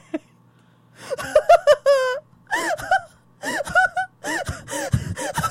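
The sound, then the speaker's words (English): A person imitates hysterical sobbing with a run of gasping, wailing bursts, several with a wavering, quivering pitch, broken by short breathy pauses. “that was not laughter, just for the record. That was sobbing. That was sobbing. Yes, hysterical sobbing.”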